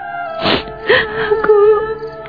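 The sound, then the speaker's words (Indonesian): A woman crying in wavering, moaning sobs and whimpers, with a few drawn-out wailing bursts and no other voices. “Mengapa kau tiba-tiba menangis?”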